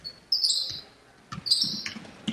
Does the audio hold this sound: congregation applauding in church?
no